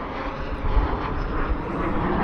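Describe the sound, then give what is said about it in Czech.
Military aircraft roar overhead in an air force flyover of CASA transport planes, JAS-39 Gripen jets and an Airbus transport at an airfield ceremony, a broad, steady engine rumble that swells slightly a couple of times. “Následují dopravní letouny CASA. A v doprovodu dvou letounů JAS-39 Gripen, také dopravní Airbus.”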